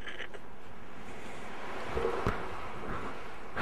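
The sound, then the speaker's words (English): Wind blowing as a steady, hissing rush of broad noise that stays level throughout, with a slight gust swelling briefly near the middle. “It's so cold. The wind. Oh, cold again.”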